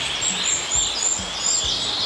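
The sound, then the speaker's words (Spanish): Small birds chirping, a few brief, thin, high-pitched calls repeating over a steady background hiss, with no voices. “lo que pasa es que los pajaritos están contando que está nevando. Por eso están conversando.”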